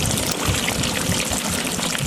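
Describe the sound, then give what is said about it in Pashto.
Water irrigating a farmer's crop field in Arghandab district, Kandahar, during drought: a steady, loud rush and trickle of running water, continuous and unbroken, with no voices. “د اوبو هغه څاڅکي چې د یوه کروندګر کښت ژغوري”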